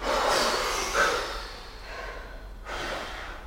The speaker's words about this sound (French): Et sur l'expiration, lâchez.